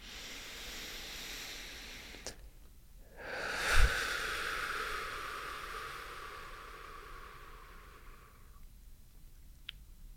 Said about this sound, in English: I'm gonna actually take a deep breath